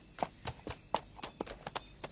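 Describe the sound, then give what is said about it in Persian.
Hoofbeats of the crown prince's horse as it is brought forward: many hollow clip-clop strikes at an uneven walking pace, some sharper than others. “خیلی خوب، اسب من کجاست؟ زالی، اسب ولیعهد رو بیار.”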